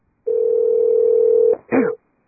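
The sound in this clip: A telephone call being placed: a steady tone holds for over a second, breaks off with a click, then a shorter second burst of tone follows, with no voices.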